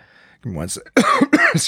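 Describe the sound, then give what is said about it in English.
A person with a sore throat and bad allergies coughs a few times. The rough, voiced bursts mix with throat clearing, loud and close together. “My sinuses are screwed. I'm coughing.”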